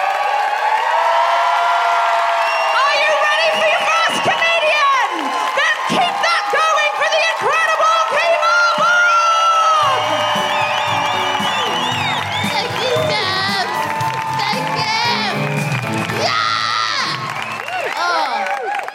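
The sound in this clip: A theatre audience at the Lowry cheers loudly and continuously, with shrill whoops, screams and shouts layered over the crowd roar.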